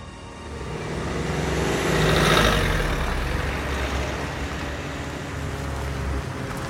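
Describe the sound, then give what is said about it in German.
A small van drives onto an abandoned site and turns into a warehouse, its engine a steady low rumble under broad road noise that swells midway and then settles, with no voices. “Der Kleintransporter mit Moritz und Kira im Laderaum fährt auf ein verlassenes Gelände und biegt direkt in eine Lagerhalle ein.”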